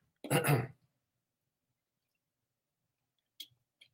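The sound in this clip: A single harsh throat-clearing burst from a dry throat, loud and brief, followed after a long silence by two faint small clicks.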